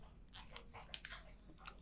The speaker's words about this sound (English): That's my dog drinking water for anybody who's wondering.